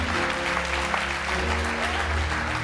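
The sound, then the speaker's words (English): A church audience applauds with hand clapping, many hands together in a dense, continuous wash at a moderate, even level throughout. “Can we just give a hand clap of appreciation”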